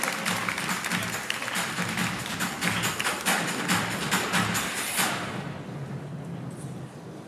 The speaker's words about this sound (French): give them a big round of applause because they are doing a fantastic job at translating every single word that is spoken on this stage.